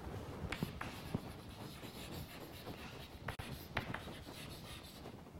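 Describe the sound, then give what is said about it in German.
Pen strokes scratch across paper as someone writes by hand in shorthand during a maths lecture, a faint, continuous rubbing broken by a few sharper taps and quick flicks, with no talking. “jetzt schreibe ich das mal in Kurzschrift auf, eine Auswahl, Auswahl kann ich ja noch hinschreiben”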